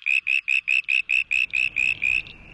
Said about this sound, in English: changing their calls to cope with a noisy environment is actually quite extraordinary for frogs.